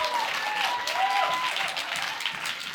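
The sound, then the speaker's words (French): An audience applauds performers at a French-language show, with thick, even clapping that holds at a constant level throughout. “Ben, applaudissez-les”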